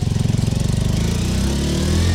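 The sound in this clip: A motorcycle engine just started and revved hard. It chugs with rapid, rhythmic pulses that blur into a louder, steady roar, with no voices heard.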